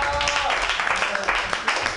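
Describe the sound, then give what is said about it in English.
Applause from a comedy show audience: a steady, dense wash of clapping for the full two seconds, with voices mixed in. “I want a round of applause right now for our all-star comedy audience members.”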